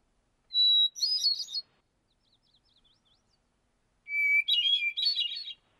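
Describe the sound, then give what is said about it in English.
A hermit thrush singing in northern Wisconsin gives two song phrases, each opening on a clear, sustained whistled note and breaking into a rapid, bubbly, fluttering flourish. The second phrase starts lower, and faint soft notes fall between them. “All right, well, here comes the hermit thrush.”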